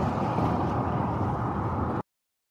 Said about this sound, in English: So as you can imagine, the audio goes on like that for quite a while because we did drive up and down several times trying to work out where it couldn't be.